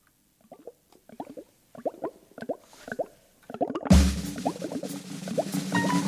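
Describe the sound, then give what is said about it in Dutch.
Wet plops from stirring a pot of mud soup with sand repeat in a steady rhythm, faint and sparse at first. After a few seconds a louder, continuous rushing noise joins, with the plopping still underneath. “Moddersoep, wij maken moddersoep. Een bruine troep en nu lekker roeren. Zand erbij, een paddenstoeltje.”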